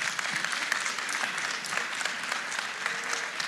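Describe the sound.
A crowd applauds to welcome two guests onto a church stage. Many hands clap in a steady, even wash for a few seconds, with no speech over it.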